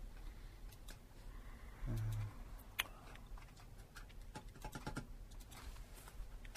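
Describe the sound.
Keys tapped on a computer keyboard to search Google, a faint, irregular patter of light clicks spread across the whole stretch.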